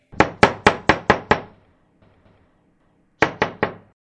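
Knocking on a door: six sharp, evenly spaced knocks, a pause of well over a second, then three more knocks in the same quick rhythm, with no voices.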